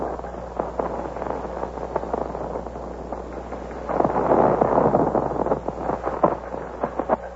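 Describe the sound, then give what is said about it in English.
Gunshots exchanged between colonial minutemen and British regulars marching on Concord: many sharp cracks and booms over a rumbling bed of noise, with a denser, louder burst midway, sounding thin and band-limited. “There's been an exchange of shots, as you've heard, between the Colonial Minutemen and His Majesty's regulars who are marching on Concord.”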